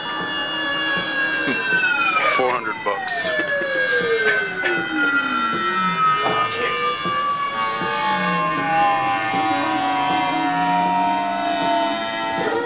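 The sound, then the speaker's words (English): Yamaha CS50 synthesizer playing siren-like wailing tones, with several long gliding sweeps that fall in pitch over a steady buzzy layer. The sound stays loud throughout, and a voice speaks briefly. “We got a CS50 from Yamaha, famous synthesizer, right? Yeah, it's pretty good. Listen to it.”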